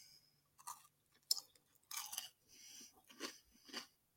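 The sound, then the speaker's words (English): Biting and chewing a small, finger-sized hazelnut chocolate candy: a few crisp crunches followed by moist, irregular chewing bursts, with no talk. “I bit into the top to get all the flavor of the top pieces.”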